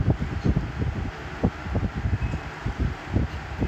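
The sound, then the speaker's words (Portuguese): Storm wind gusts in a steady ambience of low, buffeting rumbles that pulse irregularly beneath a constant airy hiss, with no voices over it. “Uma tempestade.”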